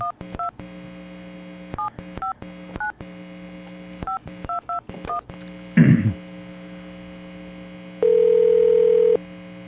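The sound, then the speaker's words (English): Telephone keypad tones as a dropped call is redialed: many short beeps in quick irregular groups, then a steady dial tone held for over a second near the end, all over a faint low hum. “Just dial him up again.”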